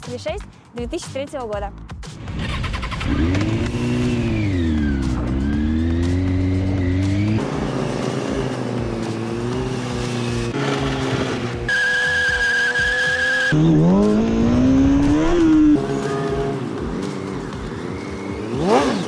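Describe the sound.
A pink Kawasaki 636 motorcycle with a loose, wobbling gas tank on a broken mount is drifting during stunt riding. Its engine revs repeatedly up and down in pitch, and a loud, sustained tire squeal cuts through partway.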